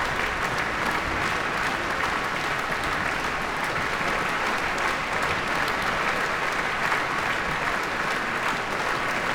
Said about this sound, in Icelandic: fagnaðlátunum linnir engan veginn hér